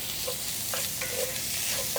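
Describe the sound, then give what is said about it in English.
Sausage sizzles in a skillet as chipotles in adobo sauce are stirred in: a steady, loud frying hiss with a few soft scraping strokes of the spoon across the pan. “And I'm gonna include about a tablespoon of that adobo sauce as well. And we're just gonna add that straight into the skillet now.”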